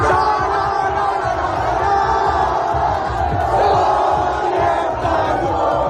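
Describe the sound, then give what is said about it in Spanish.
A dense street crowd roars and shouts in the squares and streets of the Murcia region, celebrating Spain's football World Cup final win over Argentina in extra time; loud, steady cheering without pause. “Es la euforia vivida en plazas y calles de toda la comunidad por la nueva hazaña de La Roja”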